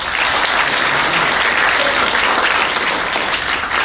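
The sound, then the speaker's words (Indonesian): An audience applauds a provincial governor after his speech. The clapping is loud, dense and continuous, with no breaks and no voices above it. “Kita beri aplaus untuk beliau.”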